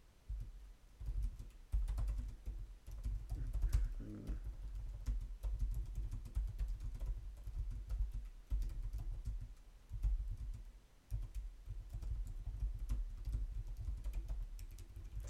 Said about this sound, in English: Alright, so what I'm doing right now is that I'm about to write an email and send it to, my goal is to do 10, but if I do more, that's even better